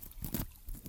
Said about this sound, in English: crystallised salt, and it's kind of crunchy. Here's a sound of me prodding it.